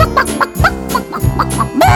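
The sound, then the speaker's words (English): Clucking of a chicken, a few short, bright bursts over a steady musical backing with no talk. “Hi there, Mrs. Chicken.”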